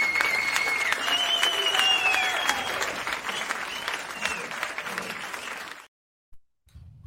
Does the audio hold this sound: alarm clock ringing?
no